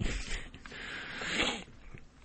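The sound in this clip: Sheets of church stationery paper knocked down, giving a dry, papery rustle and slide that holds steady for over a second and then fades quickly into quiet.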